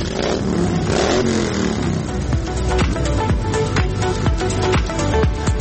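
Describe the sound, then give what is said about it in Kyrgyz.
Motorcycle engines rev and roar as hundreds of bikers set off on a season-opening ride in Kyrgyzstan, a dense, loud, continuous engine drone with many sharp throttle bursts and clatter throughout. “Ушул бою айдалбай турган темир тулпарларын жүрүшкө даярдап, жүздөгөн байкерлер зуулдат айданга ашыгышат.”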